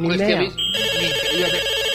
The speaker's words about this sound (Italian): Ho capito come avete dato un centralino che funziona meravigliosamente. Però la suoneria